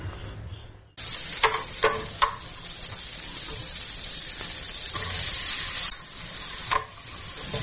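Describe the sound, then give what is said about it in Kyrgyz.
Hearts sizzle as they fry with onions in oil in a pan. After a quiet start, a steady, loud hiss sets in, broken by a few sharp stirring scrapes and crackles. “Пияз менен кошуп муну кууруп, үстүнөн тукум салып пиширип берем.”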